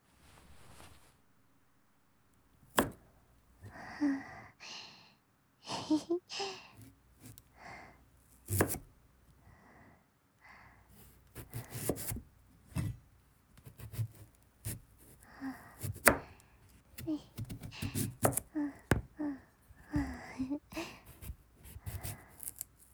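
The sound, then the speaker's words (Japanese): Many quiet, crisp knife cuts through vegetables for ASMR, coming in irregular bursts of sharp chops separated by short pauses. “野菜 ASMR、 無限の可能性を感じるよ。シャキシャキのレタスとかさ、絶対いい音するよね。”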